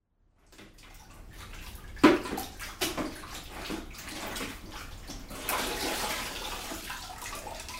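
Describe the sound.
Water splashing and rushing as a wet floor is washed, a steady wash of running water punctuated by a few louder splashes and sloshes, continuing throughout with no talking.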